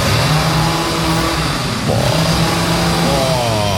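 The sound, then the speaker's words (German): A chainsaw revving while trees are being cut back: a loud, steady buzzing engine drone that dips briefly around midway, then rises again to a higher rev. “bei mir werden Bäume verschnitten. Alle 30 Sekunden heult er die Motorsäge auf.”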